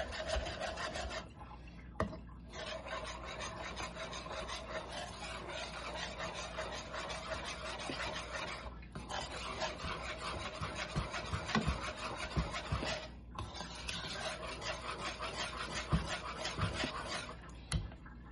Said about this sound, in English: Oh, whisk, whisk, where are you? There you are. Okay, let's whisk it up a little before we add.